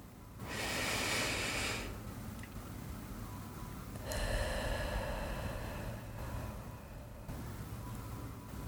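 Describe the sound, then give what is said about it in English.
A deep breath during a sleep meditation, drawn in through the nose and let out through the mouth: a soft, airy inhale hiss, a pause, then a longer, gentle exhale over faint steady background noise. “Take a large breath in through your nose, pulling as much air as you can, and then gently let it go through your mouth.”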